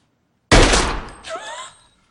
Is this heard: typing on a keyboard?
no

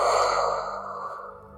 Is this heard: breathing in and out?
yes

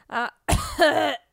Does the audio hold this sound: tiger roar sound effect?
no

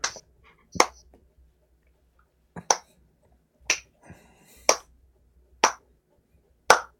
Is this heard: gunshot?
no

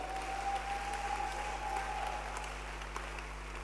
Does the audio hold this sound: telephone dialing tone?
no

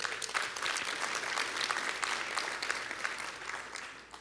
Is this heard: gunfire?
no

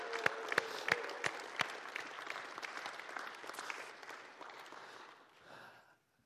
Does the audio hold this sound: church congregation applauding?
yes

